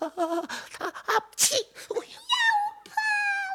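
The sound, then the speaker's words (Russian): A female voice performs a sneeze in a children's fairy-tale story: one sharp, breathy burst stands out between other vocal sounds, followed by drawn-out tonal wails. “Я чихнула, вот ты и вылетел из конуры.”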